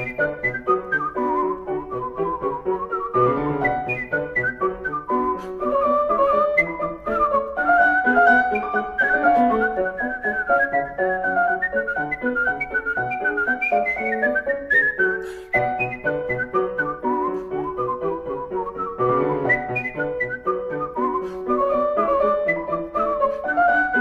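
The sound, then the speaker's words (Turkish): A virtuoso whistles a lively Baroque orchestral suite piece alone: quick, agile runs of high, bright notes in a steady rhythm, with a brief break near the middle before the tune picks up again. “Ondan Johann Sebastian Bach'ın orkestral süitlerinde yer alan Badinere'yi dinleyelim. Gerçekten de ıslık çalma tekniği açısından gene bir virtüöz performansı bu.”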